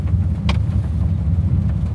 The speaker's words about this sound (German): Ja, wir fahren einfach mal los und gucken, was es hergibt.